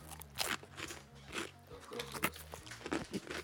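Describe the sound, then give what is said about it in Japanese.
Crunching of thick, teriyaki-burger-flavored potato snack sticks as a man chews them. Many irregular, crisp bites and crackles follow in quick succession, fairly faint throughout. “おじさんが照り焼きバーガー味のポテト食ってます。”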